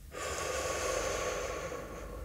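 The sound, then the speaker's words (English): A single long, breathy rush of air, steady and fairly loud for about two seconds, as a slow, deliberate breath is taken on instruction during a guided breathing exercise. “Breathe in. Breathe out.”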